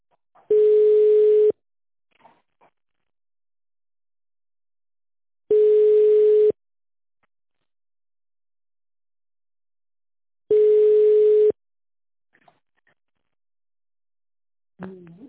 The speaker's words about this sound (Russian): Время ожидания ввода номера истекло. Ваш звонок переводится на оператора.